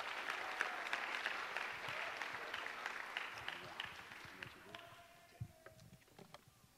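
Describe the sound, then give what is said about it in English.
Audience applause at a hip-hop conference at a university as a guest is welcomed to the stage, a dense wash of clapping that gradually thins out and fades, leaving scattered claps and a voice starting to speak. “Everyone give it up for Reverend Kenneth Clark.”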